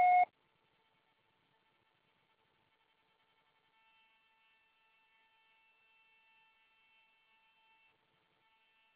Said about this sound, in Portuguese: Sua chamada está sendo encaminhada para a Caixa Postal e estará sujeita à cobrança após o sinal. Deixe seu recado.